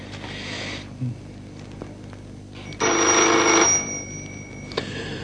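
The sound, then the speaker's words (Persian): A telephone rings in one loud, bright, trilling burst under a second long against a quiet, hissing background. “تلفن. اعتنا نکنین.”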